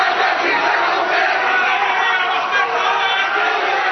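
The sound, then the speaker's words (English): Roughly 200 protesters carrying Lebanese and Palestinian flags march through the streets of Beirut against Israeli attacks on Gaza, their shouting making a loud, unbroken crowd roar that holds steady throughout. “Sounds from Beirut, where some 200 protesters carrying Lebanese and Palestinian flags march in the streets to demonstrate against the Israeli attacks on Gaza.”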